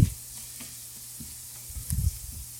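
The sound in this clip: Onion sizzling and frying in a pan for a saffron risotto: a steady, hissing fry with a few louder bursts of crackle and low thumps as it is stirred.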